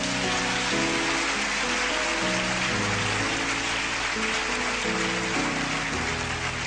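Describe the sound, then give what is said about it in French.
A church audience applauds in a dense, steady wash of clapping that lasts throughout, over sustained musical chords. “Si tu as saisi cela, acclame ton Dieu.”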